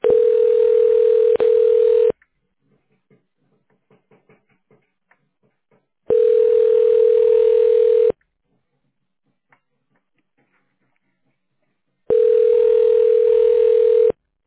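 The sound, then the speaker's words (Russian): Telephone line tone while a call connects: three steady, mid-pitched tone bursts, each about two seconds long, separated by roughly four-second silent gaps. “Подождите, идет соединение.”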